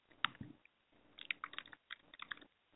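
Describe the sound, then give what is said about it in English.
Typing on a computer keyboard, faint irregular clicks of many keystrokes in quick bursts separated by short pauses. “I type it in Purpose Talk Conversation.”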